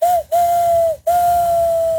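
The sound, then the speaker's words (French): A voice imitates a train whistle using fingers and mouth, giving a steady, clear high whistle in three blasts split by two brief breaks, the last blast the longest. “C'est le train. Ah, ça fait bien le train aussi.”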